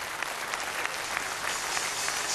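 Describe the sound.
Audience applause at a rock'n'roll stage show, a dense, steady clapping that fills the whole clip at an even level without a break.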